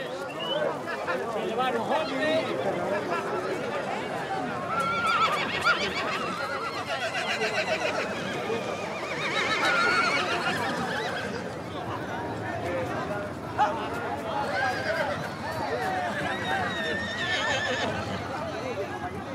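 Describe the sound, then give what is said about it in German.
Mares neighing and whinnying, with a few drawn-out calls standing out over a dense, continuous background that carries voices throughout. “Aaron muss weitersuchen nach Modestos anderen Stuten.”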